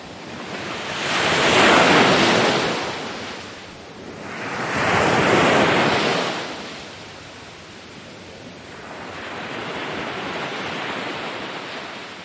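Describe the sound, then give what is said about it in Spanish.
Ocean waves break on the shore in two loud, hissing surges that swell and fade, followed by a softer, longer wash of surf, with no voices. “enseñar a sus niños cómo suenan las olas del mar”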